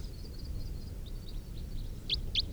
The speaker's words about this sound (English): A couple of wild birds flying over.